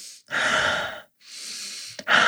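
Deep breathing, drawn in through the nose and let out through the mouth: a few long, airy, loud breaths with brief silent gaps between them, with no talk.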